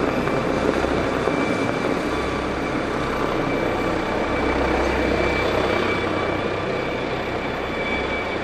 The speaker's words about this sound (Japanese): これね、すぐそばにね、ペニンシュラのフリーポートがあるんですよ。そこに着陸するの。